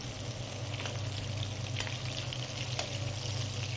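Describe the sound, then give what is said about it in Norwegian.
Butter sizzles in a pan as a cod loin is glazed: a steady, hissing fry that holds level throughout, with a few faint crackles and no talk. “For å gjøre den ekstra god litt smør. Og så glaser vi hele torsken.”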